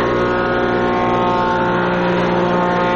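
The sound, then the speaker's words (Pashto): Woodworking machines run in a carpentry workshop, their motors cutting wood with a loud, steady, humming drone that holds an even pitch and level throughout. “څوک په ماشینونو لرګي رکوي،”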